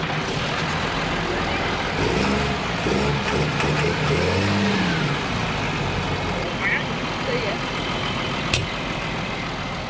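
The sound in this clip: A racing vehicle's engine starts and revs at the start of a head-to-head race, a steady broad rumble that swells with revs early on. People talk over it.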